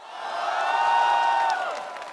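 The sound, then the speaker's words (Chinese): A launch-event audience cheers and applauds as a new phone and its Kirin chip are unveiled. The crowd sound swells to a peak midway, then gradually fades. “超级快，超级智能，超级酷，三个 Super 引爆现场掌声与欢呼。”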